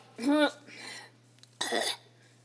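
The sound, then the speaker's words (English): Throat clearing from phlegm: a short, rough, voiced rasp followed by a quieter breathy stretch, then a second louder, harsher burst, with no talking. “I literally just had phlegm in my throat.”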